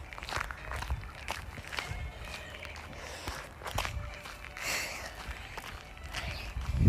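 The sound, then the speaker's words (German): Footsteps walk along a path, a faint, steady run of many soft steps with a little rustle between them. “Ich gehe gerade meinem Vater nach.”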